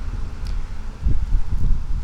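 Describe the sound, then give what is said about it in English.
Wind blows at the edge of a golf course, a low rumbling buffet against the microphone that grows stronger and gustier in the second half of the short stretch. “Wind. I'm coming up to the edge of the golf course.”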